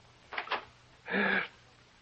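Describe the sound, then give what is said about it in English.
A hand turning a doorknob and opening the door: two quick, light clicks of the knob, then a short, soft swish as the door swings, alone against quiet. “He listens, and now his hand reaches out for the doorknob.”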